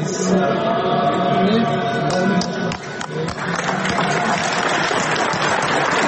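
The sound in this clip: Applause inside a church for Zdravko Krivokapić after he bows and embraces Metropolitan Amfilohije, a sustained clatter of clapping mixed with voices singing a song.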